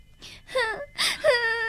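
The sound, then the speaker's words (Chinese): A child cries in a few short, faint sobbing wails with wavering, falling pitch, the last one drawn out longest. “别哭了，等放假了，妈妈带你到上海去看爸爸，好不好？”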